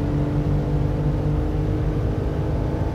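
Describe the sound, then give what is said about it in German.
Steady engine roar of a racing car nearing its top speed of about 200 km/h at 7000 rpm on a long straight during a practice run, a continuous loud, low drone that holds an even tone throughout, with no talking. “Und nähern uns jetzt auf einer etwas längeren Geraden wohl so ziemlich der Spitzengeschwindigkeit des Fahrzeuges mit 200 Kilometern pro Stunde.”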